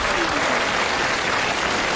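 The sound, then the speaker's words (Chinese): Dense audience applause at a live traditional stage performance. Many hands clap continuously at an even, steady loudness from start to finish, with no pauses. “你不觉得这个掌声很勉强吗？ 没有啊，人挺认真鼓掌。”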